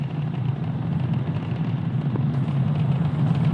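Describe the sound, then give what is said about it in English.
Falcon 9 rocket engines roar during ascent while throttling down ahead of Max-Q, a steady, dense low rumble that holds level throughout with no breaks. “the Polaris Dawn mission, flying crew on board Dragon and Falcon 9 to new heights. Power and telemetry nominal. And we're throttling down in preparation down for Max-Q.”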